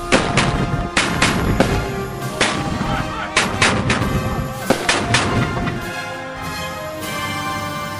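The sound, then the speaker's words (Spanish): Soldiers fire a rifle volley on command: many loud, sharp shots crack out in irregular clusters over several seconds. “Aquí tiene, soldado. A mi señal, apunten. ¡Fuego!”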